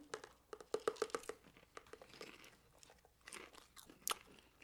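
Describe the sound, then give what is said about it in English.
Popcorn crunching during a taste test: many quick, crisp bites and chewing crackles in an irregular rhythm, faint and close, with a few louder snaps. “You hear that? That's me masticating.”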